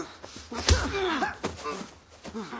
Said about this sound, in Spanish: Ennis le golpea.